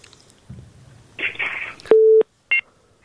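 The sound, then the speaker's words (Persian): A telephone busy tone sounds after a dropped call: one steady low beep lasting about a third of a second, then a short higher blip. Brief muffled voices come before it. “فکر کنم که تماسشان قطع شد، یک تماس دیگر می گیریم.”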